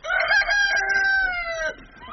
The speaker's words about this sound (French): vient nourrir sa 20aine de poules